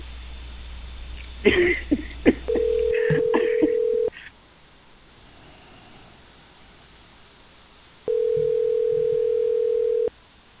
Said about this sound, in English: I just texted that to him and let's call him back again.